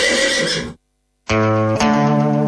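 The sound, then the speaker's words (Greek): A horse neighs loudly in two bursts split by a short silence. The first is rough and breathy, and the second is a strongly tonal, wavering whinny that shifts partway through. “Το άλογο απάντησε.”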